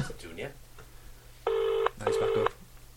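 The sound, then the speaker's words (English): Ringing tone of a telephone as an international call connects: one double ring of two short buzzing bursts, following brief voices at the start. “Is it going to ring? It's connecting to a different country.”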